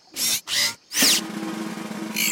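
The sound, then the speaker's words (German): A screwdriver prying open a locked chest with a skull-shaped lock, rendered as cartoon-style mechanical effects: three bursts of whirring, whooshing noise, then a steady low hum and a final burst. “du musst die Truhe jetzt für uns aufstemmen. Okay, Schraubendreher.”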